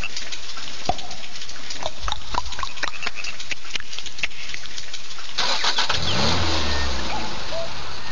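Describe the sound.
A Škoda Octavia's engine is started: the starter cranks with a run of clicking, churning strokes for several seconds, then the engine catches and settles into a low, steady running rumble.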